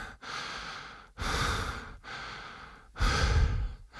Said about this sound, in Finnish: No, ryhdytkö sinäkin kaikessa hiljaisuudessa ja tylsyydessä yllätykseksesi vain hengittämään?